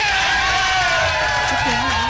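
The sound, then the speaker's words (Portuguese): A television studio audience cheers and claps for a guest in a loud, continuous crowd roar, with shouting voices and whistle-like tones riding over it. “Aplausos para Murilo. Mais uma vez, aplausos.”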